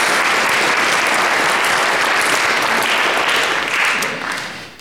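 An audience applauds after a song from a musical, with loud, dense, sustained clapping that tapers off near the end.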